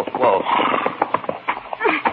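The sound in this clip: A horse's hooves clip-clop irregularly as pack animals are led to cross a rope-held bridge at night, muffled and dull-toned, with voices talking alongside.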